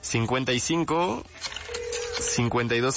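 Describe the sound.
A steady telephone tone, held for under a second, sounds as a phone line is dialed, with people talking just before and after it.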